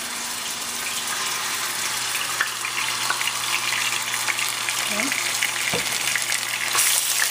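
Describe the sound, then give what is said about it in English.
Ginger and garlic sizzling as they hit hot oil in a pan, a loud, continuous crackling hiss that holds steady for several seconds, with a slight rise in intensity toward the end. “Now the oil is nice and hot. To this, I'm going to go ahead and add our ginger and garlic. Be careful, it might splatter.”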